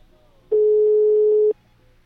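A phone call ringing unanswered: a single steady, low ringback tone on the line lasting about a second, heard alone between faint background noise.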